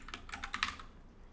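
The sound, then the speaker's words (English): Fast computer keyboard typing, a quick run of several soft, faint key clicks in close succession with no voice. “I just typed your Twitch name.”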